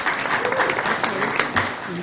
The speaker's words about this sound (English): I give her a clap. She deserves it.